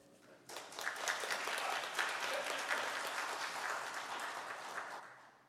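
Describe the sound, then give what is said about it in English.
A church audience gives a speaker a standing ovation. Dense, steady applause starts suddenly, holds for about five seconds and then tapers off. “I've never gotten an ovation beforehand, so I'm going to quit while I'm ahead.”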